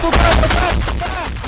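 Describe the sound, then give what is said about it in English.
Gunfire crackles during a Ukrainian assault by the 15th National Guard on a Russian position, a loud, dense run of rapid shots and bangs with barely a pause. “is a Ukrainian assault by the 15th National Guard on a Russian position.”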